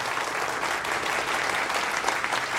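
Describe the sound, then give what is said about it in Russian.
An audience applauds. Many hands clap in a dense, even patter at a moderate level from start to finish. “Позади столиков за аплодирующими зрителями стоит Орен, аплодируя тоже.”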